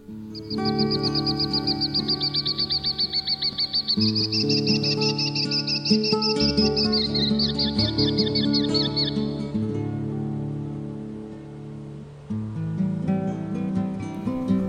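Bird calling in a field recording, heard as rapid, high repeated chirps and trills over a steady low tonal bed. The chirps fade out after about nine seconds, and the bed continues alone.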